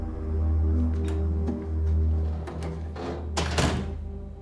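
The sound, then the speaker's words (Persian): A door closes with a single muffled thud near the end, over a steady low hum. “بیا تو درم ببند.”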